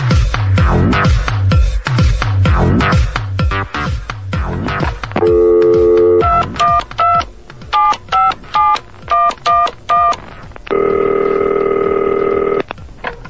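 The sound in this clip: Telephone line tones as a call comes in on a radio phone-in: a block of steady tone, then a run of short repeated beeps, then a long sustained tone, all loud and clear.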